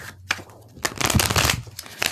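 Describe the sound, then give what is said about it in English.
Playing cards shuffled by hand, a short burst of dense papery riffling and flicking that swells louder in the middle, with no talk. “And then I'm going to do the other shuffle.”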